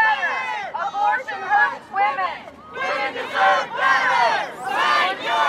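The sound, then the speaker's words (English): Protest crowd of abortion rights supporters and opponents outside the Supreme Court in Washington, D.C., shouting and chanting in loud, repeated swells, with many voices blending into a rhythmic, surging roar. “What you're hearing is a protest that took place outside the Supreme Court in Washington, D.C. this morning.”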